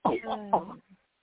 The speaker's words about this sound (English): she just started really coughing a lot just now